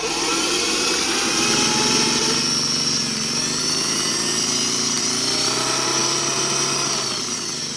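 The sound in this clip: An electric mixer whirs steadily as it works nuts into a thickening cake batter, giving a constant high motor whine with buzzing overtones for about eight seconds.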